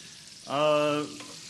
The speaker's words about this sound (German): Wir drehen es erstes Mal regelmäßig um. Wir backen das jetzt mal goldgelb raus und wir haben eine Mischung aus Öl und Margarine.